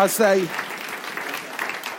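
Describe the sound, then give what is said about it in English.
Audience applause for performers who have just demonstrated a penalty shootout. A brief voice rings out at the start, then many hands clap in a steady, moderate wash that continues to the end. “Wonder if we could give these guys a round of applause”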